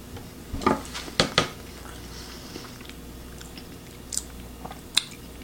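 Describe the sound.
Someone chewing a chocolatey baked treat: a few crisp crunchy bites near the start, then quieter, sparse chewing noises, with no talk.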